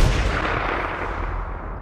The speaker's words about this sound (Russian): Выстрел. За ним еще. И еще.